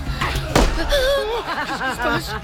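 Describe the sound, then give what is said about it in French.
A single pistol shot fired at Persian soldiers during a surprise attack on Greek troops in an animated battle scene, one sharp, loud crack followed by chuckling voices. “Un coup de feu. Quelqu'un tire au pistolet sur les Perses.”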